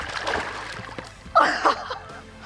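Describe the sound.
Splash of someone getting into water for wild swimming: a short, sharp watery burst lands midway, followed quickly by a smaller slosh over a quiet, low background.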